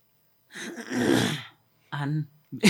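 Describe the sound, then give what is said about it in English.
A person clears their throat with a long, rasping, breathy burst, then follows with two shorter, more voiced, throaty sounds, separated by brief silences. “Why are you cleaning your throat?”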